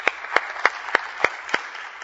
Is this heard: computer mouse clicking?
no